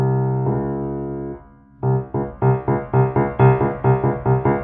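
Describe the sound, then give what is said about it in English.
Two notes a half step apart alternate in a menacing film theme: a long held tone, a brief pause, then a steady run of many short, punchy repeated notes, fairly loud and evenly paced. “as opposed to a half step, which sounds like the Jaws theme, sort of?”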